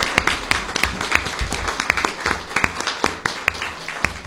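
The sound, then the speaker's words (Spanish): Applause for a group of girls, made up of uneven, clearly separated claps at a moderate level with an irregular rhythm, suggesting a small number of people clapping rather than a large crowd. “Sí, eso sí, creo que merecen que antes de ir a la pausa las aplaudamos a las chicas, que estuvieron muy bien realmente.”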